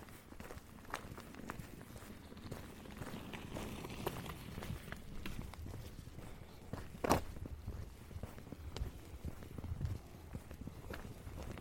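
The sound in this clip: Footsteps of a person walking outdoors through a forest, overtaking two slow-walking old women. A faint, steady patter of steps on the ground carries on throughout, with one sharper knock near the middle.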